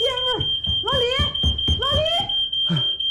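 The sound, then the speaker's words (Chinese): A home smoke alarm sounds a continuous, piercing high-pitched tone while people talk loudly over it. “家里的烟雾报警响了，坏了！”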